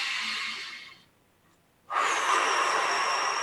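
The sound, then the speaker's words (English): Deep breaths during a breathing exercise: one long airy breath that fades out, a short silent pause, then another strong, steady breath that starts abruptly and runs to the end. “Let's do three quick deep breaths to close out our practice today. So inhale.”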